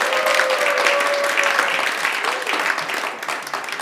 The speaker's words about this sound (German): Komm und lass uns hier nochmal einen Applaus geben.